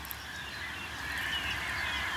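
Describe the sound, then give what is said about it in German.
A carpet of blackbird song spread across open landscape, many overlapping high warbling voices merging into one continuous, moderately loud chorus with no talk. “alles ein bisschen übertrieben, aber ich höre einen Klangteppich der Amseln in der Landschaft.”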